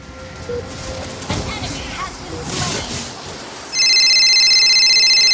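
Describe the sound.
A telephone rings as an incoming call, a loud steady high electronic tone that cuts in near the end after a stretch of noisy background with voices talking.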